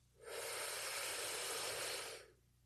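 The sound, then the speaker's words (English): A single deep inhaled breath during a guided breathing exercise, a soft, airy hiss that swells in, holds steady for about two seconds, then fades away. “Go ahead and take a deep breath in.”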